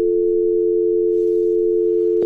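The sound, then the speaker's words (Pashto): A continuous dial tone sounds after a telephone call is cut off. The steady buzzing hum holds unchanged and loud throughout, with a brief click near the end. “او تلیفون قطع شو”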